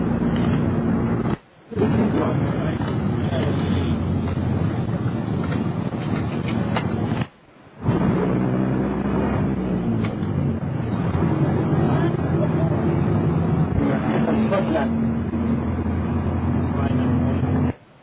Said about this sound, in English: It is that we are driving through a residential area in Jerusalem.